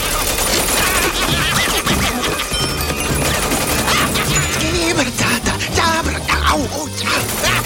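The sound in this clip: Machine gun fire from a cartoon robot's arms rattles on in rapid, continuous bursts, tangled with loud music, crashes and clanking throughout.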